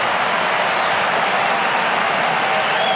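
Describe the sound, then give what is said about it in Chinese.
A tennis crowd cheers and applauds a winning drop shot, a dense, steady wash of clapping and cheering that stays loud and even for about three seconds. “这个短球的制胜分啊，也引爆了现场观众的热情。”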